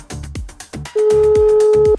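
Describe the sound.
Telephone line tone while placing a call: a loud, steady single-pitch beep lasting about a second, coming after several short, clipped bursts of sound.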